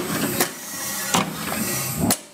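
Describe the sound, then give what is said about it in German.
A compressed-air shoe press with a built-in compressor in an orthopaedic workshop: a steady broad hiss and hum, broken by three sharp clunks at uneven intervals. “Jetzt habe ich hier einen Knopf, hier unten ist ein Kompressor drin und heute macht man das per Druckluft.”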